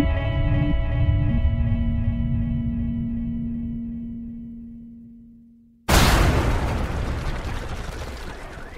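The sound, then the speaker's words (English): A bomb explodes at a South Carolina prison holding death row inmates: a sustained humming tone slowly fades, then one sudden loud blast bursts in and carries on as a dense, rumbling roar. “A bomb had just rattled the complex, and everyone was trying to figure out what happened.”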